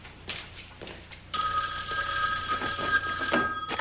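A telephone rings during dinner at home. After a quiet stretch with a few faint knocks, a bright, shrill electronic bell trill starts abruptly and keeps sounding steadily to the end.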